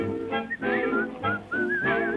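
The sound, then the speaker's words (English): A person whistles a cheerful work-song tune in loud, clear phrases of held, wavering notes and quick melodic runs, with short breaks between phrases. “try to be like a cheerful chickadee and whistle while you work.”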